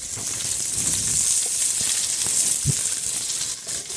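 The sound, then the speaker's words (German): Steady sizzling of coarsely cut orange pieces, peel on, caramelizing with about two teaspoons of sugar in a hot pan for duck à l'orange. A dense, even hiss runs loud and unbroken throughout. “Dann karamellisiere ich das mit etwas Zucker.”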